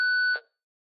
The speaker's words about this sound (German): Wenn Sie möchten, können Sie uns aber eine Nachricht nach dem Piep hinterlassen.